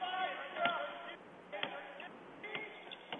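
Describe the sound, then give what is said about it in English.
A basketball is dribbled on a court during a game, a few faint, sharp thumps spaced about a second apart beneath a commentator's voice. “Dribbling on the right wing”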